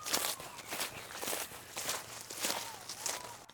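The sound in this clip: Quick footsteps of someone hurrying toward a hollow tree during an outdoor scavenger hunt, soft and steady with many rapid steps.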